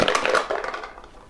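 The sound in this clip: Dice rolled to open a dice game: a short, dense rattling clatter that is loudest at the start and fades away within about a second.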